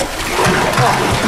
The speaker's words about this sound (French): On va écouter le doux son du liquide qui s'écoule